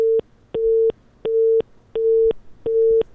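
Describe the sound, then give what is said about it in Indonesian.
A telephone busy tone sounds after a call is cut off: steady, mid-pitched beeps repeat at an even pace, each about a third of a second long with equal gaps, heard alone. “sayang sekali terputus telepon kami dengan Pak Edi Suparno yang saat ini mungkin berada di jalan, kehilangan sinyal.”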